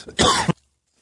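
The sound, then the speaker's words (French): A person choking and coughing: one short, harsh cough burst with a rough throat-clearing quality, ending abruptly and followed by silence. “j'étais en train de m'étouffer”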